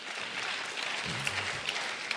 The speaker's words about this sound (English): Yeah, y'all can clap for Books Not Bars.